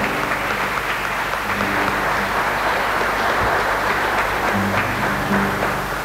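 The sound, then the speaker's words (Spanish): Loud, sustained applause from an audience at a religious novena to the Virgin, part of a foundation's anniversary celebration. The clapping is dense and steady, holding an even level for about six seconds. “Pues viene el aplauso para Cristo, a ver, ese aplauso fuerte.”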